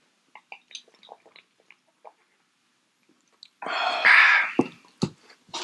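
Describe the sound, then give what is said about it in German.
A big sip of gin is taken: a few faint mouth clicks, then a loud, noisy slurping gulp followed by a couple of sharp clicks. “Das Einzige, was ich jetzt vorschlagen würde, ist, dass wir mal einen kräftigen Schluck nehmen und gucken, was dabei rumkommt.”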